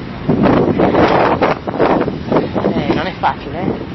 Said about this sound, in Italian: In questo momento gli elementi si scatenano, c'è un vento pazzesco, ci sono raffiche veramente durissime